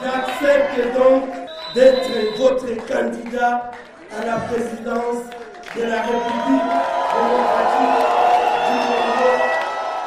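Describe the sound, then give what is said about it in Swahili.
A crowd of supporters cheers and whoops at a rally in Kinshasa. Speech comes first, then the cheering swells into a loud, sustained roar for the last few seconds. “alitoa tangazo hilo kwa umati wa wafuasi waliokuwa na furaha katika kituo cha mkutano eh, katika mji mkuu wa oh, Kinshasa.”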